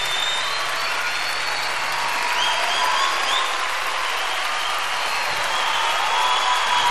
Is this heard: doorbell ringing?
no